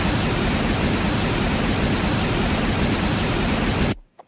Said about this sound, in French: Ceci serait un bruit rose.